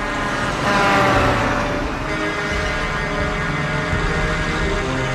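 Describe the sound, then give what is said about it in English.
Deep, steady engine rumble of a huge big-rig truck closing in from behind on a cold road. The low droning roar swells briefly near the start, then holds level, with no voices. “The huge rig is closing in behind.”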